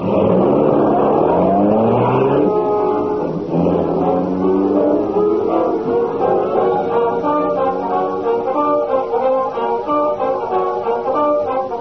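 A car drives off at speed, its engine revving in a loud, continuous drone whose harmonic pitch climbs at the start and surges again shortly after, then holds steady to the end with no voices.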